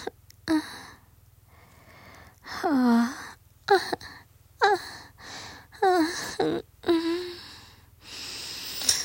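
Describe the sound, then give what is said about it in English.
Little whimpers from a person: a series of short, high, breathy vocal cries, several sliding downward in pitch, separated by brief quiet gaps and soft breaths, with no words spoken. “until you can hear the little the little whimpers that I'm making.”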